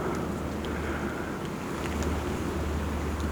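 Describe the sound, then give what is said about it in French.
Wind gusting across a plateau, a steady low rushing roar that stays loud and unbroken with no pauses. “Les rafales de vent”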